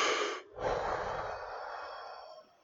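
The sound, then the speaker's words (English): A person takes a deep breath: a soft rush of air breaks off briefly, then a longer breath follows and slowly fades, all breathy and quiet with no voices. “Just take a deep breath.”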